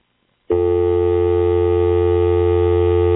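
Steady telephone dial tone as a line is opened for dialing: a continuous buzzing tone starts abruptly after half a second of quiet and holds at a constant loud level to the end.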